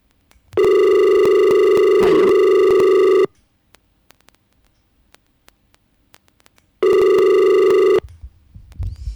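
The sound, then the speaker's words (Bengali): An incoming call ringing on a radio phone-in line: two loud, steady electronic rings, the first lasting almost three seconds, then silence, then a shorter second ring, followed by faint handling noise. “পরবর্তী ফোনটা নিয়ে নিই, আবারও কে আছেন ফোনে?”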